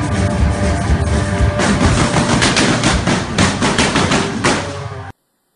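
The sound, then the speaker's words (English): Rapid gunfire erupts at a rock concert: a dense, loud stream of sharp overlapping bursts runs almost continuously for about five seconds, then stops abruptly into silence. “Then the shooting started.”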